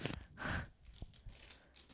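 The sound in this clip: A Christmas present is unwrapped slowly: quiet paper tearing and crinkling in a few short rustling bursts.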